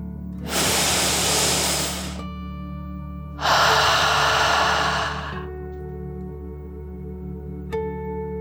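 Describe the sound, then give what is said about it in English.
A slow, deep breath in and then out as part of a calm children's relaxation exercise: two long, loud breathy hisses of about two seconds each, separated by a short pause, over a low steady hum. “let's take one more deep dragon breath in”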